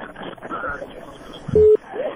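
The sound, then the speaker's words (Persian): A telephone tone marks a phone-in call being cut off: one steady, mid-pitched beep lasting a fraction of a second, coming right after talk. “تلفن قطع شو”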